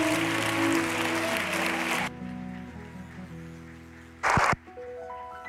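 A church audience applauds to welcome a presenter, a dense clapping wash for about two seconds that then drops away, leaving sustained musical tones and a short burst of noise.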